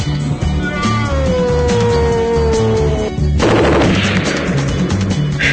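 Video-game gunfire with loud bursts of shots and crackling blasts throughout, plus a thin whining tone through the first half that cuts off abruptly.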